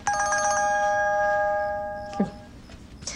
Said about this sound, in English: Her mobile phone rings and she answers it with a smile.